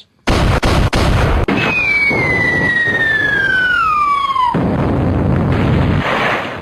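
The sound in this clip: An explosion sound effect: a loud burst of blast-like noise with a few sharp pops, then a long whistle sliding steadily down in pitch over the roaring noise, which keeps rumbling after the whistle cuts off.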